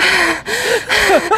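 Nervous panting: quick, loud, breathy in-and-out gasps with a faint voiced edge, coming in short uneven bursts.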